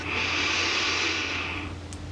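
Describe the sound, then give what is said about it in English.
A long, deep breath taken during a guided breathing exercise: a steady, airy rush that holds evenly for nearly two seconds, then fades away. “Deep breath as you expand in your line, just allow.”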